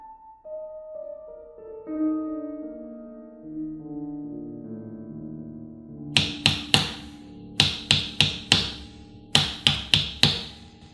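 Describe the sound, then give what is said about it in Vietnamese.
Knocking on a house door from outside at midnight: quick, urgent raps in three bursts of several knocks each. Soft, stepped tonal notes come first. “Tiếng gõ bên ngoài càng dồn dập.”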